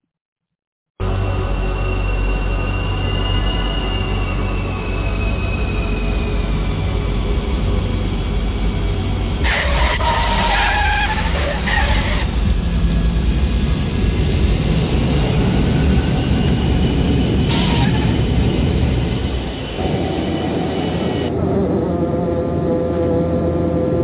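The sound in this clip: Jet engine roar of a large aircraft landing, a loud, steady, broad rumble with a thin whining tone over it, holding for the whole stretch with no voices.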